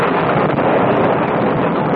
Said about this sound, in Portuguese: Mas está chovendo muito.